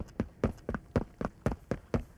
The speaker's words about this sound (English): I ran from my laboratory with disgust, half mad, half exhausted.